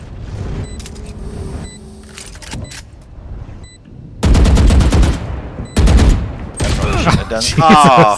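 Rapid gunfire crackles through a video game shootout, with dense bursts of automatic fire coming in a few loud volleys in the second half after quieter game sounds.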